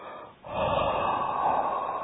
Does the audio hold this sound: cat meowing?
no